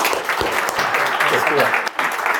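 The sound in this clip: Audience applause welcomes a speaker onto the stage at a High Alpha event: a dense, steady wash of clapping that fills the whole stretch without a break.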